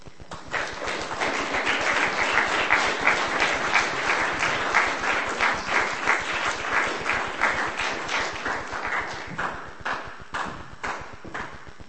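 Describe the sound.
An audience claps after a poetry reading. The applause is loud and sustained, with many overlapping claps that thin into more separate slaps toward the end.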